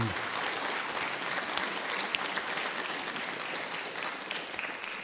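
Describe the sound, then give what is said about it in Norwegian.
Audience applause fills a hall at a summer conference, with steady, dense clapping that holds at an even level for the whole stretch and has a few sharper claps poking through. “Så vi må gi disse en god klapp for den flotte innsatsen.”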